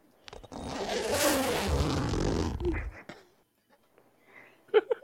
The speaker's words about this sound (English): That's the sound of either a duffel bag or a tent. And it sounds to me more like the size of zipper that would be on a tent.